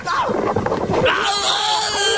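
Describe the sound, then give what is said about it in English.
A person screaming while on a treadmill, producing strained, pained vocal cries and wails that become more drawn-out and sustained in the second half. “This is the sound of me on the treadmill when Greeny mentioned us.”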